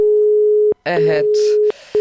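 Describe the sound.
Telephone busy signal from a failed call: a steady, low, pure tone that cuts out and then resumes, stopping again briefly near the end, with a short burst of garbled voice over the line in the middle.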